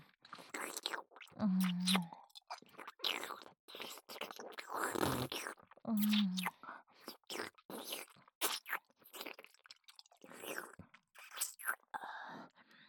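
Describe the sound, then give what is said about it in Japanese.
Wet tongue kissing sounds: a long, fairly soft run of moist smacks, licks and clicks with slurping between them, and brief breathy murmurs here and there. “舌と舌を絡めるとろけるようなキス。”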